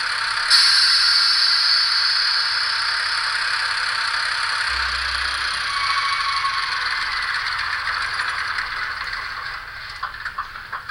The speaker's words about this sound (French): si j'appuie sur 1, on entend bien le son du moteur.